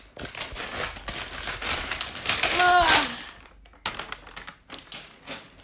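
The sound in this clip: Packaging crinkles, rustles and taps as a package is opened during an unboxing, with a busier stretch of handling midway, a voice heard briefly, and a short pause before a few more scattered clicks.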